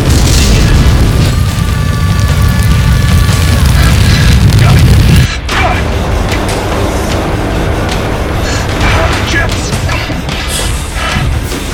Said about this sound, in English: Plasma thrower active. Use caution when deploying this weapon.